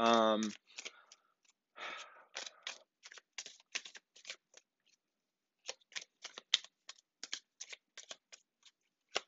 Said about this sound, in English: I'm not sure if you guys hear these cards shuffling and riffling.